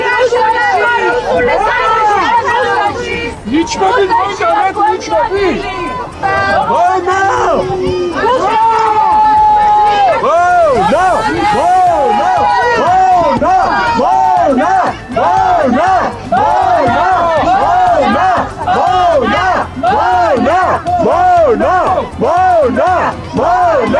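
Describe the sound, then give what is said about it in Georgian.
A crowd near parliament chants insults at Georgian Dream party members after police pushed people away from a memorial. Loud, continuous, rhythmically repeated shouting from many voices. “ქართული ოცნების წევრებს ხალხი მონას და რუსებს ეძახდა. ახლა ამ შეძახილებს მოვისმენთ.”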